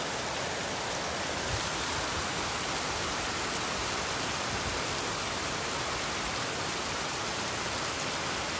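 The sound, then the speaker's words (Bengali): Heavy rain falls with only a light wind, a dense, even hiss that holds at one steady level throughout, with no breaks and no talk. “বৃষ্টির শব্দ প্রবল, বাতাস মানে তেমন না, হালকা, বৃষ্টির শব্দটা খুব মানে উপভোগ করার মতো।”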